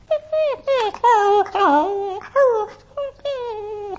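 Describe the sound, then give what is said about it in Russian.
A puppy whines plaintively in a string of high, wavering cries. The whimpers rise and fall in pitch and are broken by short pauses. No other sound accompanies them. “Жалобно и, казалось, безнадежно, он вдруг начинал скулить, неуклюже переваливаясь туда-сюда, искал мать.”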